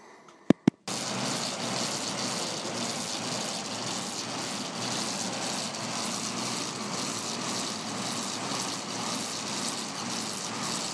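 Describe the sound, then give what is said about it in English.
A fan built into a bike spins with a loud, steady whooshing roar of airflow. The roar follows two sharp clicks at the start and holds constant to the end. “The unique thing about this bike is that it has a fan built into it.”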